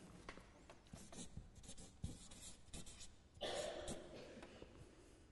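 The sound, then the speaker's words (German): A pen writes out a Bible reference in faint, scratchy strokes, irregular and quiet, with a slightly fuller stretch of scribbling near the end. “Vollständigkeitshalber schreibe ich auch da noch das eine. Das ist 1. Korinther 4.”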